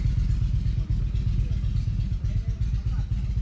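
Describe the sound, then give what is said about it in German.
A group of motorcycles sets off together, their engines giving a heavy, steady low rumble with some clatter that stays loud throughout. “So, jetzt macht sich hier gerade so eine Motorradgang los.”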